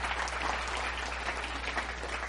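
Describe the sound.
Applause from an audience thanking a speaker, a steady, dense wash of clapping that holds an even loudness throughout, with no voices on top.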